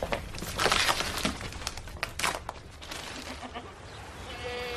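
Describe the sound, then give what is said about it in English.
Goats bleating at a farm: short, wavering calls that rise out of a constant rustling, crinkling noise, growing clearer toward the end. “Come and have a look at these goats.”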